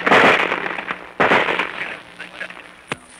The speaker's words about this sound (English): Listen. Can you hear that sound? Those, my friends, are bullets.